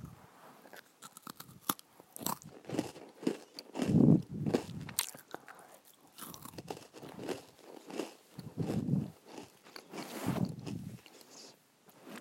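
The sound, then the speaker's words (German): Crunchy bites into food followed by chewing: a few loud, crisp crunches stand out among many smaller crackling mouth sounds, with no talk. “Ich beiße nochmal rein.”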